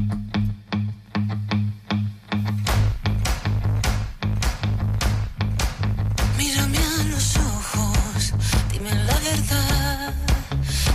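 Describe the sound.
A pop song plays, with a steady low bass line and a regular beat throughout and a singing voice coming in partway through over fuller, brighter backing.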